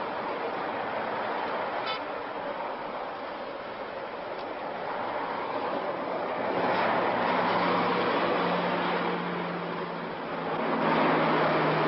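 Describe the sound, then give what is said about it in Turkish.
Trucks and buses pass along a road, with a continuous traffic rumble that swells louder as heavier vehicles go by in the second half, then settles briefly before rising again at the end. “Yoldan geçen kamyonlara ve otobüslere bakıyor.”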